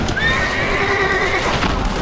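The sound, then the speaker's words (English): A galloping horse neighs as horsemen fire pistols while fleeing a town, giving one long, drawn-out whinny that holds a high, wavering pitch over a constant rough, noisy background. “One of the galloping horses went down, leaving an outlaw without a horse.”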